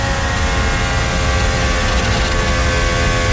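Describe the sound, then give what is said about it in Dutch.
Loud racing car engine held in high gear without shifting down, a constant dense roar with a steady, unchanging pitch throughout. “Schakelt niet terug. Nee, schakelt niet terug. Houdt hem in de 7e versnelling.”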